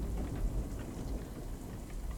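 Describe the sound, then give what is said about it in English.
Heavy rain pours steadily during a severe thunderstorm with tornado warnings, dense drops hitting surfaces over a deep, low rumbling of thunder. The level stays high throughout with no voices. “Fucking severe thunderstorms. Fucking tornado warnings.”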